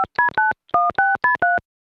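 Electronic keypad tones from a time machine being set to a date: seven short two-tone beeps, three in quick succession, a brief pause, then four more in an even rhythm.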